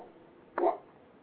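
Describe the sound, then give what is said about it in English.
A single short, deep bark from a big dog in the background, brief and fairly faint against a low steady hiss. “That's my dog in the background, only it's not a little one, it's a big one.”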